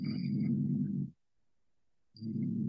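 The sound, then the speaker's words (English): A human voice imitates the closed-mouth growl of wolves and bears: a low, steady rumbling drone lasting about a second, a brief silence, then the same rumble starting again, fairly quiet and with no words. “what I call rumbling, which is when animals, wolves do it to a certain extent, bears do it, they growl, but with their mouth closed. So it's like,”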